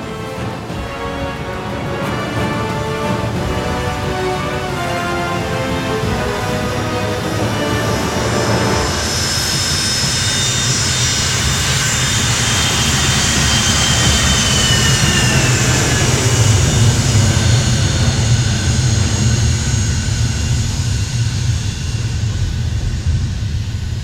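Jet aircraft taking off, a loud continuous roar of its engines with a high whining edge that swells stronger partway through and holds steady to the end, with no talk over it.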